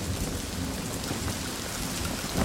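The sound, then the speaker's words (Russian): Heavy rain pours steadily on an overcast day over a training ground in the city of Jing where warriors stand, making a dense, even, continuous hiss with no voices. “Пасмурный день. Льет дождь. На учебной площадке стоят воины.”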